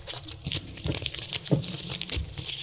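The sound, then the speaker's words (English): Ripping and crunching sounds come from something being torn apart, tied to steak dipped in dressing. Rough, crinkly bursts repeat in an irregular run with no talk over them. “Ripping the shit up.”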